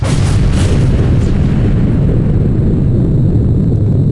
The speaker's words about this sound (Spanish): ¡Qué fuerte es esto para mis oídos! ¿Por qué explotan los volcanes?